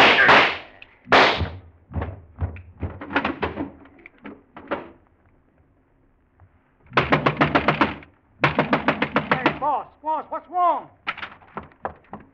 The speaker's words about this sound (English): Go ahead, start shooting.